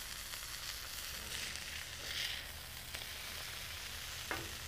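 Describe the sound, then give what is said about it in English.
Several large burgers frying on a cooktop, giving off a steady, quiet sizzle with fine crackling throughout and a few slightly stronger spits and pops rising from the hiss. “A lot of burgers. All righty. They're starting to cook up here.”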